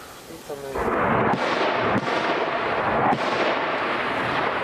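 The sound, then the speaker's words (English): Loud explosions from fighting in the war in Ukraine form a heavy, continuous booming rumble. A few sharper blasts punch through it as it rolls on for several seconds. “Loud explosions”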